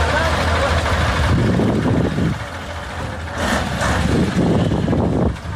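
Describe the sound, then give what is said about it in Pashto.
Heavy engines of large trucks on a mud-wrecked, rutted highway between Uruzgan and Kandahar, helping smaller cars through mud and potholes; a steady low drone that dips briefly midway, with indistinct voices mixed in. “دا د روزګان او کندهار د لوی لارې پر سر غټ موټرونه دي چې د کوچني موټرو سره مرسته کوي ترڅو له لوړو او ژورو یې تیر کړي او له خټو یې راوځي.”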